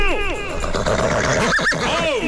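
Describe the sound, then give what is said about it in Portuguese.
A horse neighs in repeated, quavering whinnies with arching pitch contours, loud and overlapping one another. “Você vai embora de cavalo, tá?”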